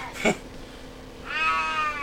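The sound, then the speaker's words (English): An old cat that needs to urinate meows twice: a short sharp call, then a longer, drawn-out tonal meow over a steady low background. “When he starts meowing like that, I know he's got to piss.”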